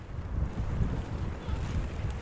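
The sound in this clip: A light breeze blows outdoors by the sea on a sunny day, producing a steady low rumbling wind buffet with no clear breaks.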